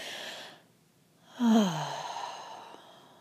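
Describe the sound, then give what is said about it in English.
A deep breath taken during a guided breathing exercise: one long, sigh-like exhale swells up loudly, then tapers off into a soft, breathy fade, with quiet stillness before it. “So let's begin with taking 3 deep breaths.”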